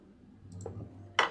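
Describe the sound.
A key turns in the lock of a small casket, giving a few faint clicks followed by one sharper, louder click near the end.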